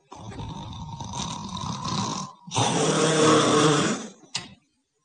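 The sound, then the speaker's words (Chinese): A storyteller's voice imitating loud snoring: two long, rasping, drawn-out snores, the second louder and fuller than the first, followed by a short final burst. “这呼噜打得鼻息如雷。这呼噜是由小声到大声，是由大声到特大声”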